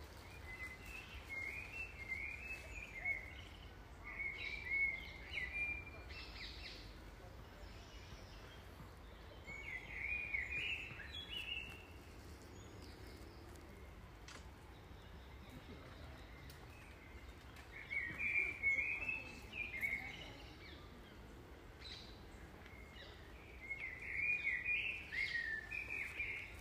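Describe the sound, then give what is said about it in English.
Birdsong in a forest during a walk, faint bursts of high chirping calls recurring every few seconds over a soft, steady background hiss. “So what you're hearing is the sounds of nature.”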